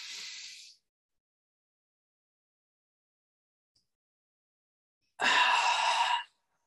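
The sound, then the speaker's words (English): A deep belly breath is drawn in during a relaxation exercise, short and airy. After a long silence comes a slow, louder, breathy exhale lasting about a second. “One more time, drawing energy in from overhead. Big belly breath in.”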